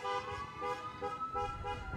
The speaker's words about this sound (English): And with a police escort leading the couple hundred cars that have gathered, the parade makes its way to the entrance of the Villas.